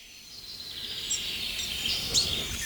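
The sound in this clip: High, thin calls of young blackbirds begging for food, a faint, steady stream of chirps repeating throughout with a few sharper notes standing out, and no voices.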